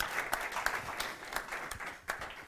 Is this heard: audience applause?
yes